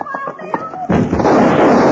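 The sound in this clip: A gunshot in a radio drama: a brief voice is followed by one sharp, loud blast, then a sustained rush of noise that carries on to the end.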